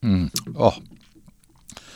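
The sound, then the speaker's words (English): Sipping young vintage port wine from a glass: a brief voice is followed by a short, wet slurping sip and faint mouth sounds, then a soft click near the end. “Oh, actually, I'll just take a sip, excuse me.”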